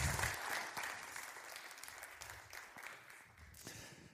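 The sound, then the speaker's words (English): Audience applause greeting a children's pastor: a dense, steady wash of many hands clapping at once. It stays fairly even throughout and eases off slightly toward the end, with no voices over it. “Would you please put your hands together and welcome Pastor Lucas?”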